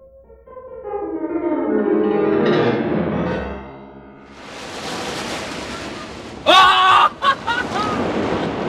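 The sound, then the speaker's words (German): High ocean breakers on an island beach on a fine day, a broad roaring wash of surf that swells in after a quieter opening and keeps rushing steadily to the end. “So hohe Brecher haben wir schon lange nicht mehr gehabt.”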